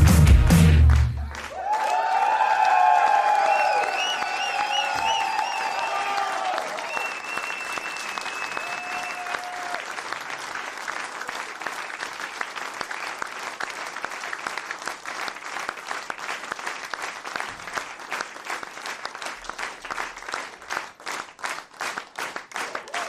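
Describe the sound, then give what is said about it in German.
Dense applause from a crowd bursts out loudly at once, with a few voices and tonal cheers rising over the clapping at the start, then settles into steady, even clapping that carries on to the end. “Applaus”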